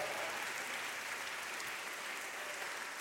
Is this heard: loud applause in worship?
yes